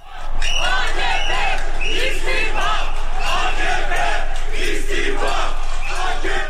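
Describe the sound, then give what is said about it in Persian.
Anti-government protesters chant loudly in an Istanbul street. Many voices shout together in a dense, continuous roar that holds steady for several seconds. “این صدای معترضان است که خواستار استعفای رجب طیب اردوغان هستند.”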